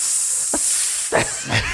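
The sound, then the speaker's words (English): A voice imitates a hiss, the kind a group might make to jeer at someone: a sharp, airy hiss held steadily throughout, broken by a few brief breathy bursts. “Oh, they hiss.”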